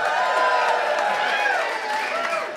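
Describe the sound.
A live audience cheers at South by Southwest in Austin, Texas, a loud, dense roar of many voices with whoops that stays steady through the whole clip.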